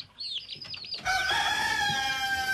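A rooster crowing, a loud sustained harmonic call filling the second half, preceded by a run of shorter, high-pitched wavering calls.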